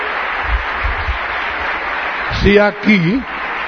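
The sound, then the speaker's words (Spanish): A church audience applauds during a sermon, making a soft, steady wash of clapping. Near the end a voice speaks over it. “Un aplauso para el Señor.”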